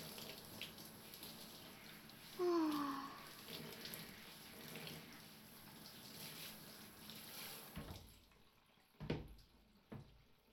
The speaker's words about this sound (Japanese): めっちゃ気持ちいい。美容師さんにされてるみたい。ダーリン、髪洗うの上手だね。